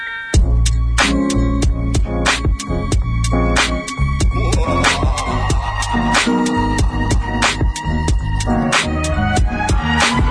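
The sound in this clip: Instrumental hip hop beat with punchy, regularly spaced drum hits over a deep bass line and layered melodic tones, loud and steady throughout.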